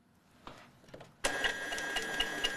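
A tailor's sewing machine runs in an alterations workshop, starting abruptly after a quiet second and then humming steadily with a fast, even rhythm of mechanical clicks and ticks.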